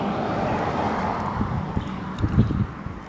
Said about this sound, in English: I do apologize for the noise, I'm on the main road, so hopefully you guys can hear me as best as possible.